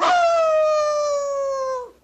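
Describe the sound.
A dog howling as it strains at its leash: one long, loud, sustained howl with a clear tone that drifts slightly downward in pitch before breaking off.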